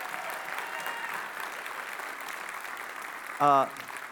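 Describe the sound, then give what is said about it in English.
A church audience applauding to welcome a family home, a steady, even patter of many hands clapping, and a short burst of voice breaking through near the end. “So you can give them one more hand this morning and welcome them.”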